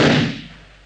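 A pistol shot fired into a wall at an existing bullet mark: a single loud, sharp crack whose broad burst fades quickly into a short, dwindling tail.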